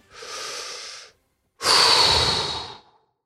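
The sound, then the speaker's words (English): A deep breath: two long, airy breath sounds separated by a short pause, the second louder and fuller than the first, with no voices. “So take a deep breath”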